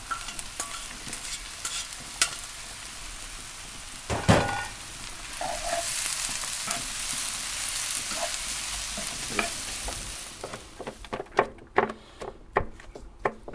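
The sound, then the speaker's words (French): A veggie burger mixture of lentils and quinoa is stirred with continuous wet scraping and squelching, broken by a louder knock partway through and ending in a run of quick taps. “Alors du coup là j'ai tout mélangé. Euh, les légumineux, la marrante, les lentilles, le quinoa qui est derrière, qui a fini d'égoutter.”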